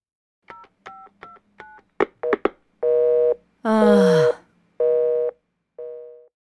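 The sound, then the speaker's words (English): Telephone dialing followed by a busy signal: a quick series of short touch-tone beeps, then several longer, evenly spaced busy tones at a steady pitch, clear and fairly loud with silence between them. “The line's busy.”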